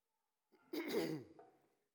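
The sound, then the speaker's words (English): A speaker clearing their throat and coughing once in the middle of a scripture reading, a short raspy burst lasting about a second against silence, with nothing else around it. “I don't know what got in my throat here, but you have to excuse my trying to get it out.”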